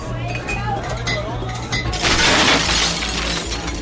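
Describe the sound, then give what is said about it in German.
Drinking glasses break midway with a sudden bright crash and tinkling shards, rising out of a busy, noisy crowd backdrop with clinks and murmuring voices. “Ja, bei uns gehen immer zwischendurch ein paar Gläser kaputt und wir füllen so zwei Kübeli am Abend mit kaputten Sachen.”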